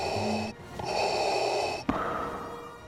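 Mechanical breathing through the respirator mask of a black-clad film villain: long, hissing, amplified breaths, separated by short pauses, with a brief click partway through.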